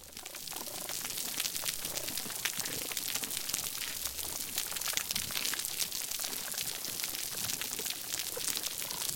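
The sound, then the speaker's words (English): Dense underwater crackling and popping from a healthy coral reef, a steady, busy wash of countless tiny clicks and snaps that continues without a break at an even level throughout. “Let's listen again to that healthy coral reef that we started with.”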